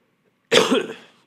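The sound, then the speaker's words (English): A single loud, harsh cough bursts out abruptly and then trails off in under a second. “sorry, that was very loud. I knew it was going to be loud, but I couldn't quit the cough.”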